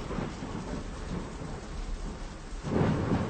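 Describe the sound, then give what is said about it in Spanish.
Heavy rain pouring down with thunder: a constant, dense hiss of falling rain over a deep rumble that swells louder near the end, with no voices. “Está lloviendo a cántaros y es hora de regresar a casa.”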